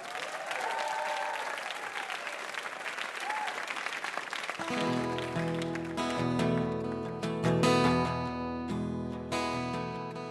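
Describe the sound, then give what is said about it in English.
Audience applause for a performer on a quiz show, a dense, steady patter of many hands. About midway, music enters and carries on over the fading clapping. “Yes, another hand for Frank Goche for playing it hilarious and fantastic.”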